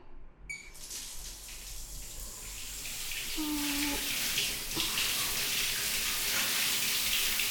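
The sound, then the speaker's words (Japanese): Hot water poured over someone in a bath makes a rushing, splashing wash that starts abruptly, swells louder and holds steady to the end. “お湯かけるね。”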